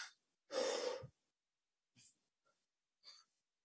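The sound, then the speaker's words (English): A man addressing a committee about a bill takes one deep, breathy inhale, followed by a few much softer breath sounds with quiet pauses between them, all faint. “Deep breaths are good”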